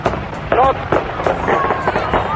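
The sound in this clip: Firecrackers going off in a rapid, uneven run of sharp pops and bursts, loud and mixed with voices and crowd noise.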